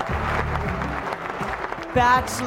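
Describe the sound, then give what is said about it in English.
Excited crowd cheering and applauding: a dense, steady roar of voices and clapping layered over tonal music, holding at an even level throughout. “Okay, there's the crowds. They're so excited.”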